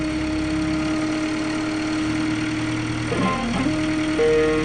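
A Subaru aluminium engine, taken from a dented car and mounted in the nose of a homemade aircraft, runs with a steady, buzzing drone. Its tone wavers briefly and then steps slightly higher near the end.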